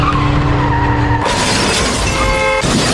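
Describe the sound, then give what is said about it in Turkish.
A speeding car swerves and smashes into a broken-down car stopped on a road, recorded by a security camera: loud tyre skidding and engine noise give way to a harsh crash with shattering, then sustained noisy rumble. “Otomobildekiler araçtan inerek arızaya bakmak isterken bu sırada aşırı hızlı bir araç makas atarak otomobile çarptı. Kaza anında güvenlik kamerası kayıttaydı.”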